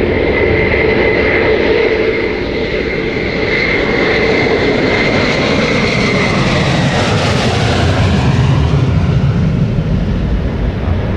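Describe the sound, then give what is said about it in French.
A Concorde supersonic jet airliner passes overhead with its landing gear down and lights on, on a last flight between Roissy and Le Bourget. Its jet roar is a loud, broad, continuous rumble that swells slightly midway. “Les rayons du soleil sur la carlingue, feu allumé et train d'atterrissage sorti. À sa façon, Concorde vous dit adieu avant d'entrer au musée.”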